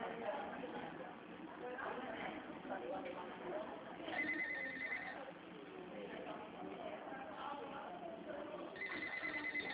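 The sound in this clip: A telephone bell rings in two short bursts of high, steady trilling, partly under people talking.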